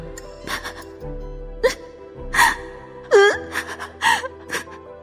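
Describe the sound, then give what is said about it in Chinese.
A child cries hard with many bursts of wailing sobs broken by sharp gasps, each cry swelling and wavering in pitch before dropping back. The sobs are loud and there is no talking. “哎呦哎呦，这怎么真哭了？”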